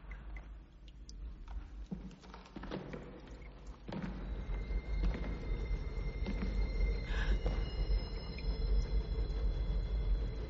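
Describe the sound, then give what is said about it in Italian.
Low, steady rumbling of a train moving through a tunnel on long-abandoned lines. The roar grows louder after a few seconds, with faint high metallic squeal-like tones over it, and no voices. “Sembra un treno. Ah, queste linee sono abbandonate da 50 anni.”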